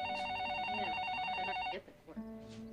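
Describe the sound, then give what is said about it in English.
An office telephone rings with a loud, rapidly warbling electronic trill that holds steady for over a second and a half, then stops abruptly and gives way to quieter shuffling sounds and a lower steady tone. “The phone rings in Jim's office.”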